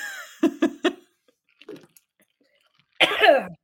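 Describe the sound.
A person suffering from seasonal allergies coughs three times in quick succession, then makes a fainter throat sound, and after a pause gives a short voiced, laugh-like utterance.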